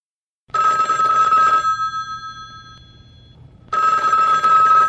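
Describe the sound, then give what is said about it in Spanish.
A telephone rings with an incoming call: two long, shrill bell-like bursts with a quiet gap between them, the second cut off at the end. “a esta hora tenemos llamada, ¿contesta usted o contesto yo?”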